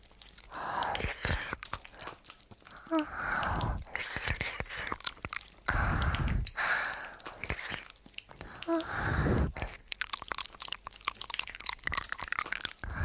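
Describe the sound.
Crunchy biting and chewing of food, with many sharp, crisp bites and chomps in an irregular rhythm, close and fairly loud throughout.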